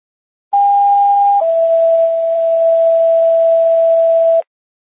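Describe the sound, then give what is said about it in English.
Non-emergency dispatch radio tones play loud and alone: a steady higher tone for under a second, then a lower steady tone that holds for about three seconds before stopping abruptly. “Non-emergency tones.”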